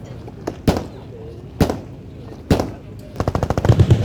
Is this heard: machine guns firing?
yes